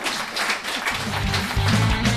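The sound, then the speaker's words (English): Audience applause at a comedy show: dense, steady clapping fills the whole stretch at an even level, with a low rumbling sound underneath in the second half. “Yeah, applause. That's what this means.”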